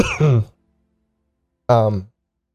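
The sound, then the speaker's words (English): A man clears his throat in two short, voiced bursts separated by a pause of over a second, with nothing else heard in between. “clears his throat.”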